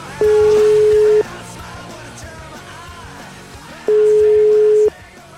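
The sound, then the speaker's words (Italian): Two long, steady telephone ringback tones sound during an outgoing call to a doctor. Each flat, mid-pitched tone lasts about a second, with a pause of several seconds between them, over faint background sound. “Qui ho trovato il numero di telefono. Chiamiamo, dai.”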